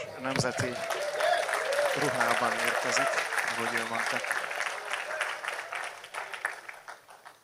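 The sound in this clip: An audience at an evening church service applauds to welcome a visiting preacher dressed in native attire. Steady clapping runs under a talking voice, then thins and fades toward the end.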